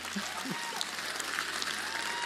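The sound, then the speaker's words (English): Light, polite golf clap from a church audience, a steady, fairly faint patter of hands with no strong peaks, sustained throughout. “I mean, that's a golf clap.”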